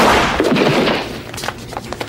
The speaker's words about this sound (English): this moment leads to a scene that many of us could only wish we could see play out in this lifetime or the next. Andy Dick getting shot.